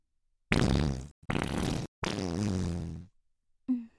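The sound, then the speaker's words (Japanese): Flatulence: four loud, low, buzzing fart bursts in quick succession. The third is the longest and trails off, and a short final puff follows after a brief pause. “ごめんね、急におならしたくなっちゃって。”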